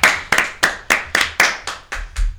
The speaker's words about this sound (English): I am free to clap now.